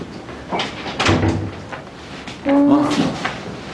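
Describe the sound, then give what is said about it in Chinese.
A door being shut at home, heard as a couple of thuds and scraping knocks a second or so apart, with a brief voice alongside. “赶紧，快点把门关上。”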